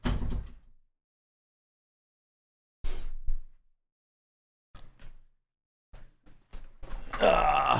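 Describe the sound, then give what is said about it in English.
A dog gives a short, low, rough burp at the start, then a few brief clunks and thuds follow, and a louder rumbling noise comes at the end. “You just burp in my face? You just burp?”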